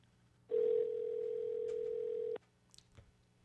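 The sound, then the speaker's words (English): A telephone call tone sounds after dialing a number in Alabama: one steady, unbroken mid-pitched tone lasting about two seconds, cut off by a click, followed by faint scattered noises. “Call Alabama again so they can say, I beg your pardon. You're not calling that number again, are you?”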